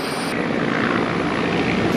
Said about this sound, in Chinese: 夜幕降临，直升机再次起飞，转入夜间海上飞行训练。